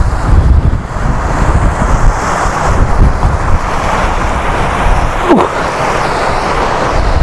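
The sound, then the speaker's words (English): Strong wind buffets the microphone outdoors among rocks, a steady, loud roaring rumble that never lets up, with no talk over it. “Right, hopefully this will offer some wind protection because I'm going to be behind a little rock.”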